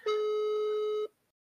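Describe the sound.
A single steady telephone tone during a live prank call to a friend. It is clean and level, lasts about one second, then gives way to silence.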